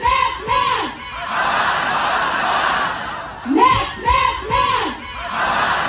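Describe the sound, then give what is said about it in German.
About 1000 students protest at Cologne University against Chancellor Friedrich Merz, a crowd shouting rhythmic chanted slogans in two loud bursts, with a steady crowd roar between them. “Weg mit März, hau ab, gut 1000 Studenten haben am Mittag auf den Uniwiesen protestiert, denn Bundeskanzler Friedrich Merz war an der Uni Köln heute.”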